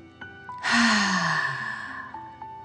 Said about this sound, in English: Okay, deep breath in and out.